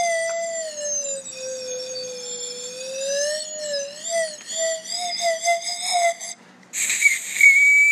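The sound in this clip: A whistle plays a wavering, sliding tune, its steady tone bending up and down in pitch throughout, ending with a brief shriller, higher note.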